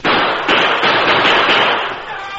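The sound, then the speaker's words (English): Gunfire from lookouts posted up a canyon: a loud, dense volley of overlapping cracking shots that blur into one continuous roar before easing off slightly at the end. “The lookouts posted farther up the canyon opened fire.”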